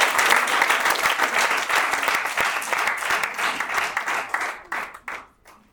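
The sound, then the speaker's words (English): Loud applause from a gathered audience at a retreat session, many hands clapping in a dense, sustained burst that thins near the end into a few scattered claps before dying away. “Let's clap for them.”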